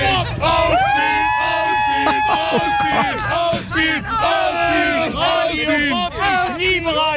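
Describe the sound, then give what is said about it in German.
Festival-goers waiting on the infield cheer, yell and chant together, a loud, continuous crowd roar with overlapping shouts and sung tones that holds steady throughout. “Und die Leute, die stehen hier tatsächlich schon richtig lange in der prallen Sonne und haben auch richtig Bock. Ich halte mal ganz kurz das Mikro rein, wie das so klingt, wenn die hier stehen.”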